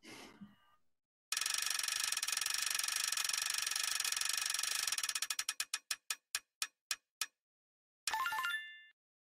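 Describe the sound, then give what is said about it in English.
A prize wheel spins with a rapid run of ratcheting clicks that gradually slow and spread apart until it stops, followed by a short, bright tonal sound. “why don't you spin the wheel for us?”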